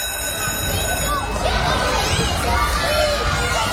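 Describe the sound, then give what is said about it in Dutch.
Children shouting and chattering at De Oversteek primary school in Nijmegen on the first day of the new school year: a dense, continuous babble of high, excited voices at a steady loud level. “En dit is natuurlijk het vertrouwde geluid van een basisschool.”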